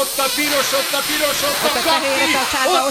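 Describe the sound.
Hard blowing into a breath-measuring device makes a loud, steady, breathy rush of air that lasts throughout, with people talking over it.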